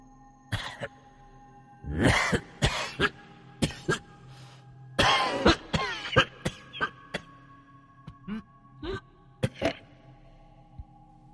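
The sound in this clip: Heavy coughing from another room, the room where a body is laid out: many harsh, hacking coughs come in uneven bursts, with throat clearing and short pauses between fits.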